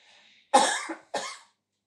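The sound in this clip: Two coughs from a tickle in the throat: a stronger, throaty first burst, then a shorter second one. A faint breath comes before them, with no talk.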